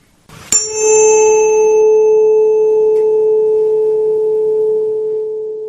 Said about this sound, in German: Der nächste Ton ist der Ton A mit einer Frequenz von 440 Hertz.